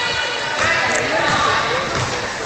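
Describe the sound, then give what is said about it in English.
A basketball is dribbled on the court during a women's game, with steady bounces under continuous commentary voices. “So St. Mary's going to dribble down, dish, a little 10-foot jumper, and misses it.”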